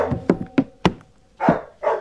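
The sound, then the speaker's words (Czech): A dog barks aboard a capsized shipwreck, starting with a few short, sharp yaps in quick succession and then two fuller, longer barks. The barks are loud and stand alone with no talk. “Ten pes nás odtud nechce pustit.”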